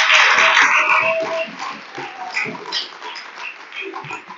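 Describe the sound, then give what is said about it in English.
Audience applause for a girls' volleyball team, a loud burst of clapping and cheers at the start that thins out into scattered claps over the following seconds. “So let's give the girls a hand for that.”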